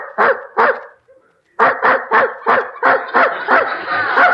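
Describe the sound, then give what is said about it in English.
A dog barking in the next room: two sharp barks, a brief pause, then a rapid, loud run of many barks in steady succession. “There's that dog in the next room barking again. Kept me awake half the night.”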